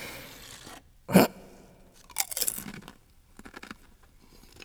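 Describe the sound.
Potato chips crunch as they are bitten and chewed: one sharp, loud crunch, then a cluster of brittle crackles and a few fainter chewing crunches, with no talking.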